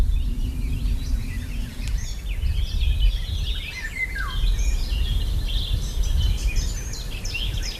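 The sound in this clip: A nest-weaving bird sings bright, high chirps and quick trills in a steady run over a low, constant background rumble.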